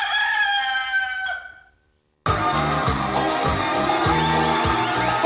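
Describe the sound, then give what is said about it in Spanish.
A fighting rooster crows once, a long wavering call that fades out. After a short silence, loud music starts. “gallo de riña.”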